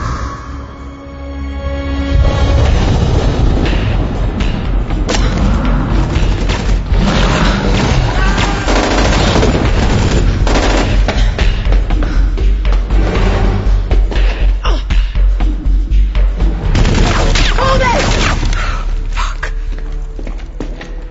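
Gunfire of UV rounds forms a dense, loud barrage of many rapid shots and heavy thumps. It stays sustained and relentless for about twenty seconds, then eases slightly near the end.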